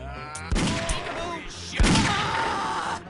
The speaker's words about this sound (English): It's an ambush. Oh, another one? He shot me.